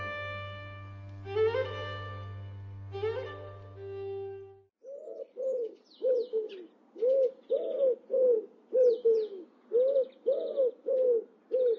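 Wood pigeon cooing: many low, hollow coos repeat in a steady, even rhythm, with faint higher bird chirps above. A passage of sustained, harmonic instrumental music plays before the cooing starts.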